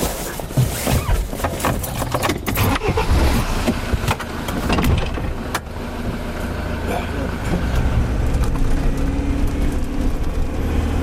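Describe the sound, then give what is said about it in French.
Engine of a rugged 4x4 off-road vehicle driving off, a steady low rumbling drone with rattles and bumps throughout and a few louder knocks early on. “On décolle tout de suite à bord de son 4x4 de baroudeur”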